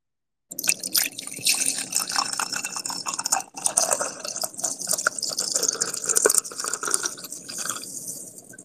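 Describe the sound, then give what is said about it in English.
Coffee poured into a cup makes a continuous splashing, trickling liquid sound that runs steadily for about eight seconds after a short silence. “I haven't even poured my coffee yet. Let me go and do that”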